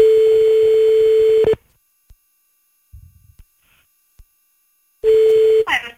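A telephone ringback tone plays while a call is placed back to someone: a loud, steady mid-pitched tone, then a long quiet gap with a few faint clicks, then the same tone again, ending in a short noisy burst.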